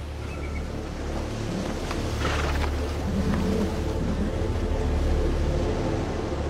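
Rough sea waves surge around a ship, a continuous loud rushing roar mixed with wind noise that stays steady throughout, with no talking.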